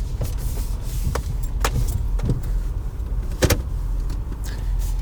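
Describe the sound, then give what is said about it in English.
A car as it starts driving: a steady low engine and road rumble, with a few sharp clicks and knocks over the drone. “I'm going to start driving.”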